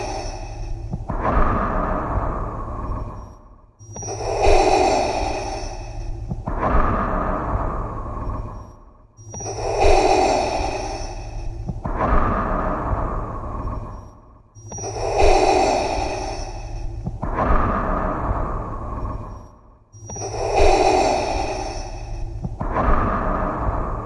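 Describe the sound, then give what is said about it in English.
A person imitates the mechanical respirator breathing of a masked villain, with slow, heavy, hissing breaths alternating in and out in a steady repeating cycle, loud and raspy throughout. “these 10 Darth Vader breaths are for you.”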